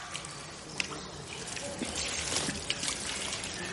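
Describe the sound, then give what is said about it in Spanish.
Two women pour water over their heads in a bathhouse with marble surfaces. A faint, steady trickle and splash of water runs throughout, with a few small drips standing out. “Ambas se echan agua sobre sus cabezas.”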